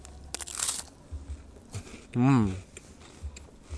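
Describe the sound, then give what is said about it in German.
A Knoppers wafer snack bar is bitten and chewed, giving a few faint crunches, followed by a short hummed sound from the eater over quiet background noise. “9:30 in Deutschland und was isst man da? Natürlich ein Knoppers.”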